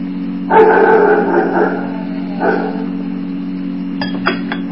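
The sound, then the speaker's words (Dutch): A dog gives two drawn-out, tonal barks, the first longer and stronger, over a steady low hum, followed near the end by a few short, sharp clicks. “De hond. Dat is de hond.”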